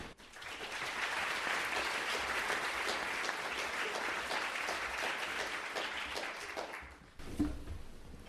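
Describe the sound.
Audience applause at a book festival talk as a speaker is welcomed: a dense, sustained wash of many hands clapping for about seven seconds, then thinning out and dropping away near the end.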